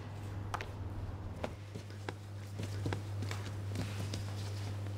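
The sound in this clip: Soft thumps and slaps of sourdough being slapped, pushed and kneaded on a floured work table, a series of dull hits spread over a steady low hum.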